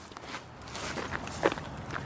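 Footsteps of people walking outdoors in El Paso, Texas, near the Mexican border, toward a tunnel opening. A steady run of soft scuffing steps over constant background noise, with one sharper step near the middle.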